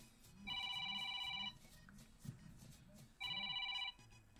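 An electronic telephone ringing in two trilling bursts, the first about a second long and the second slightly shorter, separated by a quieter gap.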